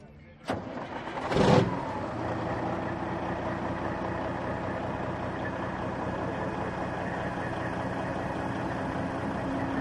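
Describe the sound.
A vintage Kenworth show truck from the USA, 500 hp with a 12.7-litre engine: a sharp knock and a short louder burst, then a steady, deep rumbling run that holds at an even level to the end.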